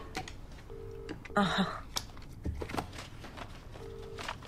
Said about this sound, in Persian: ببخشید باید با خوابگاه تماس بگیرم ببینم سر چند پذیرش میدن.